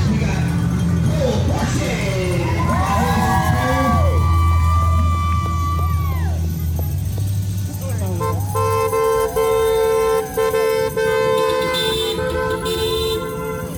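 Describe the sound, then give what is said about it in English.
Car horns honk as graduating seniors from Casa Grande parade through the neighborhood around their campus. Short toots and longer sustained blasts repeat over a loud crowd of cheering, talking voices. “This is the sound of graduating seniors from Casa Grande riding through the neighborhood around their campus. As each student made their way down the route, people made their own tunnel of love.”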